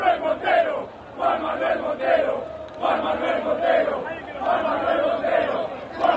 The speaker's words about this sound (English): They're chanting his name.